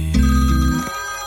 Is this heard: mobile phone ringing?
yes